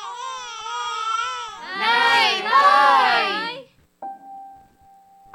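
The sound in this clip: A child crying in loud, wailing sobs that waver in pitch and swell in intensity, then stop and give way to a steady electronic tone.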